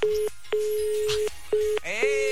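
Unanswered telephone call: a single-pitched electronic tone sounds in a few pulses of uneven length separated by short silences, ending on a richer, buzzier tone.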